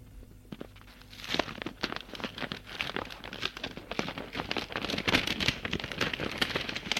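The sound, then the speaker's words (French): Dense paper crinkling and crackling as a self-adhesive paper envelope is carefully peeled open. The rustle starts faint, then continues as many quick crackles and small tearing sounds. “Allez, j'ouvre et on verra bien. Elle ouvre délicatement une enveloppe.”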